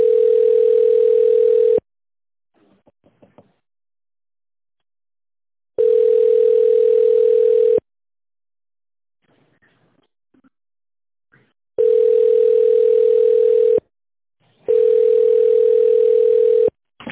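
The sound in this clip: Four long, steady, single-pitched telephone tones of about two seconds each, separated by silent gaps with faint clicks, as a business call fails to connect.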